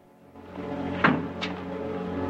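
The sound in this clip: A hotel room door opens to let a visitor in from the corridor, with two brief clacks about half a second apart over a steady droning background tone.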